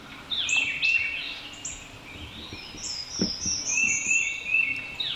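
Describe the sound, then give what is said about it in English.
Birdsong from a meditation timer's nature soundtrack: high chirps and whistled trills repeat throughout, with sweeping calls over a soft, steady outdoor-like background hum. “Oh, that bird's gonna be a bit unrelaxing.”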